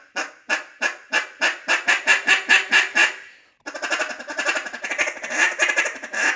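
A cut-down goose call being blown produces about a dozen honking notes that speed up and swell slightly. After a short gap comes a sustained, rolling stretch of rapid, deeper, raspy notes.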